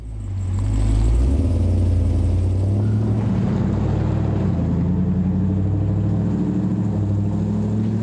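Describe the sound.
A car engine revs with a deep, steady rumble and strong low tones that carry through the whole stretch with slight shifts, and no voices over it.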